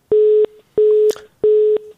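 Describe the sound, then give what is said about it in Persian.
A telephone busy tone follows a dropped call: three identical flat, steady beeps of the same mid pitch, each lasting about a third of a second, separated by short silent gaps in an even repeating rhythm. “فکر میکنم تماس زفر جان جاوید قطع شد متاسفانه.”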